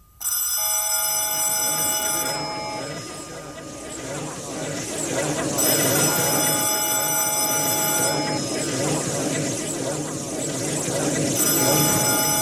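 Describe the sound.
A telephone bell rings in three bursts of bright, metallic trilling, separated by pauses and held over steady background noise.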